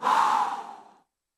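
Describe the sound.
A voice imitating blowing breath: one soft, airy exhale that lasts about a second and fades to silence.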